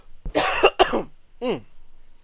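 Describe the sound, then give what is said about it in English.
Coughing after something went down the wrong way: two sharp, harsh coughs in quick succession, then a shorter voiced throat sound after a brief gap. “Excuse me, something went down the wrong throat.”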